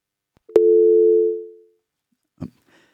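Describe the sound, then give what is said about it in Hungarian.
Incoming telephone call tone: a sharp click opens a single steady electronic tone that holds for about a second, then fades out. A brief click follows after a short silence. “Köszönjük szépen Márknak, és látom, hogy van egy bejövő hívás.”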